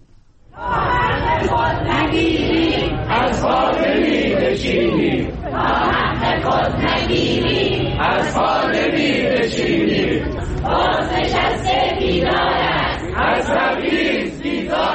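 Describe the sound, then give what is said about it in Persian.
Retired protesters at a rally in Kermanshah, Iran, chant slogans in unison. After a quiet first moment the crowd's voices surge and stay loud, repeating phrases in rhythmic waves with brief dips between them. “این صدای گروهی از معترضان در کرمانشاه است.”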